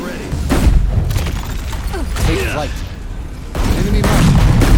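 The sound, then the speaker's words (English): Video game gunfire: booming shots and rapid bursts in a dense, continuous barrage, with players' voices talking over the firefight. “Dude, I'm shooting him.”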